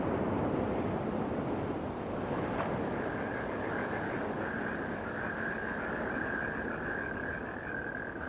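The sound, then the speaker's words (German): Sea waves wash steadily around a state yacht out on the Gulf of Cambay. The rush is faint, continuous and broad, and a thin, sustained whine joins partway through. “Wir fuhren mit dem Maharaja und ein paar kräftigen Typen von der Leibgarde in deren Hoheit Staatsjacht aufs Meer hinaus, durch den Golf von Cambay, zu einer kleinen Insel im Perim-Archipel.”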